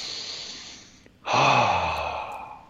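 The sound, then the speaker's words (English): A person takes a deep breath: a soft breathy intake, a brief pause, then a louder, sighing exhale that slowly fades. “And I would just kind of breathe deep because we've been talking a lot.”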